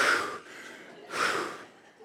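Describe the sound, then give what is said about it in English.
A deep breath drawn and released, heard as two broad, airy rushes of air separated by a short pause, the second slightly louder, with no talking. “Oh, okay, take a deep breath.”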